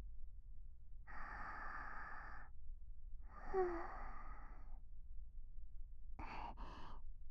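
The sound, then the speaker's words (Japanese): Someone takes a deep breath, a slow, soft inhale followed by a long, airy exhale. Two short, quick breaths come after a pause, all quiet and without speech. “深呼吸してみるね。”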